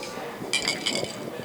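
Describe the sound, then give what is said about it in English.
Glasses of bourbon clink together in a toast, a brief cluster of bright, ringing glass taps. “This is definitely a toast. We got to clink these.”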